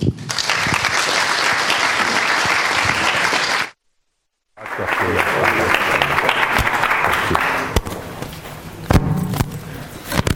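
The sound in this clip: Audience applause at a school welcoming a former climate commissioner as speaker. Loud, sustained clapping breaks off briefly into silence, then resumes and gradually thins toward the end.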